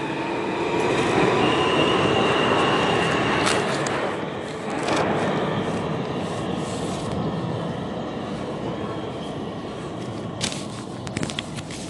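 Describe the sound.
A passing locomotive train roars steadily with heavy rumbling and grinding, punctuated by metallic wheel squeals and rattling bursts, loud throughout with no talk.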